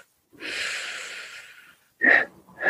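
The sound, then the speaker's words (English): Breathing exercise: a steady, medium-depth inhale, then a short breath out and the start of a second one. “nice inhale in, not too deep, medium breath in, and then a short, long breath out.”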